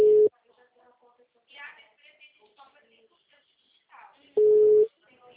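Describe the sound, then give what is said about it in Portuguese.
Telephone busy tone after a dropped call: two steady mid-pitched beeps, a short one at the start and a longer one near the end, with a voice talking in between. “em São Francisco, a ligação caiu”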